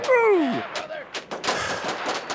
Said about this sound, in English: I'm going to spin my sniper rifle up. I got a Barrett 50 cal. Go ahead and start shooting myself.